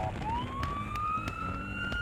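A police-style siren wails from a van made to look like a police vehicle, its tone sweeping upward and holding high and loud over a low traffic rumble.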